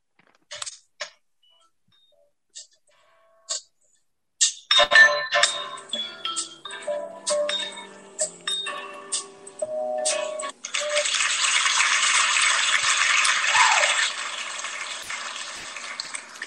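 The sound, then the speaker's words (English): Prize wheel being spun for a door-prize drawing at a convention: a few sparse clicks, then a dense run of rapid, uneven clicking, followed by a sustained loud hiss. “spin the wheel and let's have a winner”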